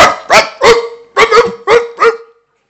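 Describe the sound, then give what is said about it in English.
A man imitates a barking dog with seven short, loud, throaty barks, grouped three and then four with a brief gap between the groups, after which he falls silent. “the only time you clap is when I sound like a dog.”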